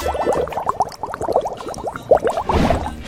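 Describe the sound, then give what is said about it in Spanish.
A cloth rag is washed in a laundry sink, producing a dense run of wet squishing and splashing sounds that rise and fall in quick bursts. “voy a aprovechar porque tengo que lavar este trapito porque tengo que limpiar aquí lo que es la cocina. Esto es el lavadero.”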